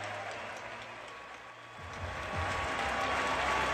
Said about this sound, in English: Standing ovation from everybody, the players, the spectators, the announcers.